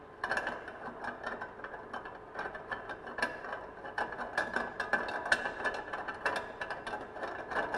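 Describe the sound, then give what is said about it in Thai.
Ratcheting mechanical clicks as the lock on a machine's tube is loosened so the tube can be turned out for cleaning: a dense, continuous run of many rapid clicks and rattles at fairly steady loudness. “เราต้องหมุนหลอดออกก่อนนะครับก็คลายตัวล็อกนะครับคลายตัวล็อกนะครับ”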